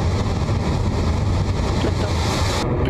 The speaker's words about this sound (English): The beginning of the swarm has begun its ride to space with that clean Electron liftoff from LC-1.